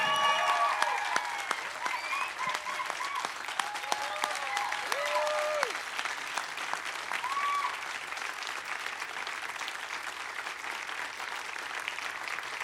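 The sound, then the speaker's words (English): Audience applause welcoming a pastor and a second speaker to the stage: steady, dense clapping from a crowd that carries on evenly through the whole stretch at a fairly soft level. “Well, we just want to welcome Pastor John and Chris up to the stage. Give them a big hand as they come on up.”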